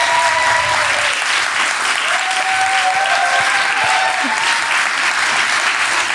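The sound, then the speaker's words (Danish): An audience claps loudly, a dense and steady wash of applause that holds at full strength for about six seconds without letting up. “klappede publikum så højt”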